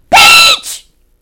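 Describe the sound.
A voice imitates a mouse screaming very loudly: one shrill, high-pitched scream lasting under half a second, followed by a shorter, softer tail and then silence.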